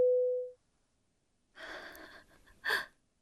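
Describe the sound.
A single steady electronic telephone tone as a group voice call hangs up. It fades out after about half a second, followed by silence and then a couple of breathy gasps.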